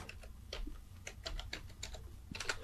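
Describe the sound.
Typing on a computer keyboard, a quiet, steady run of many light key clicks in an uneven rhythm, with no voices.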